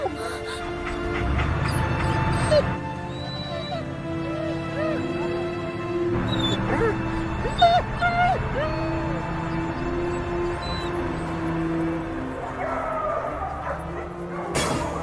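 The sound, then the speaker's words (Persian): Several dogs bark, yip and whimper in a crowded place. Sharp barks break out at a few points over a continuous background of whining and noise. “خیلی شلوغ بود. سگای دیگه هم مثل من خیلی ناراحت بودن.”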